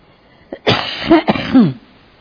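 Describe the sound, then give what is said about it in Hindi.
Coughing from a woman with a heavy cough: a few rough, partly voiced bursts, like coughs or throat clearing, come close together in quick succession at a moderate level. “मैं खांसती जाएगी और बोलती जाएगी क्योंकि बहुत खांसी हो गई है।”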